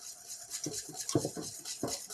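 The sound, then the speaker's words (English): A whisk works through a thickening cornstarch mixture in a pot on the heat as it nears boiling, making faint, repeated scraping and clinking strokes in an uneven rhythm. “So with the spatula, I scrape the bottom. I keep my bottom clean. And with the whisk, I whisk. So I cut the lumps so that in the end it will be smooth.”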